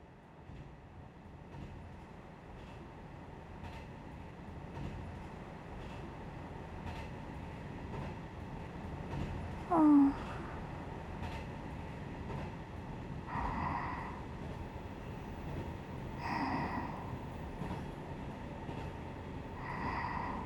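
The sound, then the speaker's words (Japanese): A Kiha 100 series diesel railcar, Kiha 101 of the former Nansatsu Railway, running on rails: a steady low rumble and rattle throughout, with a brief louder squeal near the middle and a few short higher tones later. “現肥薩未完鉄道所属、旧南薩鉄道キハ100系キハ101専用レールロード”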